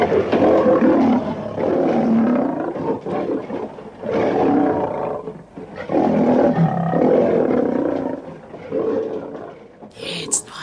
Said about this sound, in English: So give us a lion roaring. Okay, I've got one for you. Here you go.